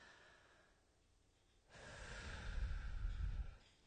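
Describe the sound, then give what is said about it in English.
An audience breathes in deeply together at a talk: a soft, broad rush of breath swells in after a quiet stretch and grows fuller toward the end, with no talk. “So let's take a deep breath real quick.”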